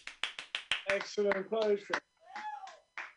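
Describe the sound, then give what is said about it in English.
A few sharp hand claps ring out at a live comedy show, followed by a voice whooping and shouting loudly. “Show some fucking love. Woo! Clap on that.”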